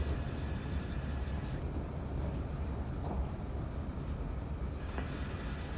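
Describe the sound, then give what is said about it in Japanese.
A train rumbles steadily as it pulls into a station at Kyoto, a dense, continuous low roar with a faint metallic hiss on top that stays even from start to finish. “まもなく京都です。13番線に到着、お出口は左側です。”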